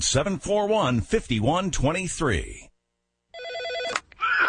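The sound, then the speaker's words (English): An old PBX office phone system rings with a bright, warbling electronic tone after a stretch of speech and a brief silence. A voice starts talking again just as the ringing ends. “This is your old PBX phone system.”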